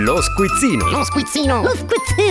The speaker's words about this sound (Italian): andiamo intanto con la sigla dello squizzino, così scopriamo, oggi stiamo parlando di arte, 2000 euro in gettoni d'oro, e andiamo a scoprire con lo squizzino chi sfida Francesco, vai.